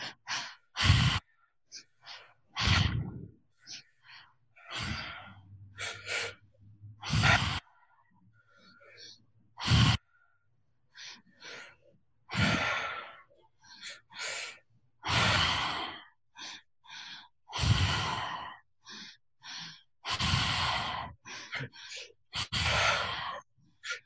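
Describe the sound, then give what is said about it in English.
Deep breathing during a guided exercise, air drawn in through the nose and let out in many slow, sigh-like breaths with short pauses between them. “And one more time in through the nose. And when you're ready, let's start the breath pattern together.”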